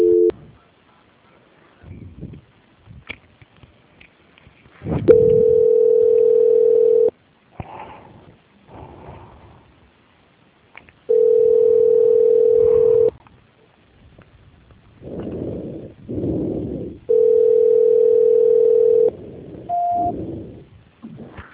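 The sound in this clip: A telephone line plays steady tones while a call is being transferred: three long, even beeps of about two seconds each, separated by stretches of softer, uneven sounds.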